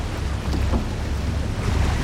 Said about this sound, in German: Das ist das Wassertaxi.